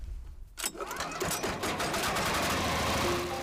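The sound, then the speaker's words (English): A grinding machine shreds prosopis branches into powdered animal feed, giving a loud, dense mechanical roar with a rattling clatter. The noise starts after a brief quieter moment and holds steady to the end. “After collecting the prosopis, the villagers feed it into the grinder. The result? Nourishing powdered food for the animals.”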